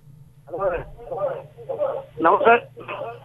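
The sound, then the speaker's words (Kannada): Radio playing near a caller on a phone line, heard as muffled, band-limited voices in five uneven bursts over a steady low hum. “Radio ದೂರ ಇಡಿ, ನೀವು ಏನ್ ಕೇಳ್ತಾ ಇದ್ದೀರಿ ಅಂತ ಗೊತ್ತಾಗ್ತಾ ಇಲ್ಲ.”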